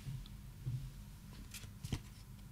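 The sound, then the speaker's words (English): A trading card is turned over, heard as a faint, soft papery flick with a couple of brief swishes in otherwise quiet surroundings. “We're going to turn over the next card.”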